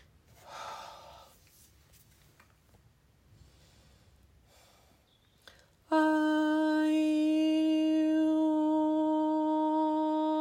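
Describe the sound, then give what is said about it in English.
One deep inhaled breath during a guided breathing and sound session, soft and airy near the start; after a quiet stretch, a loud, steady, ringing harmonic tone begins and sustains to the end. “So take a last breath, relax in.”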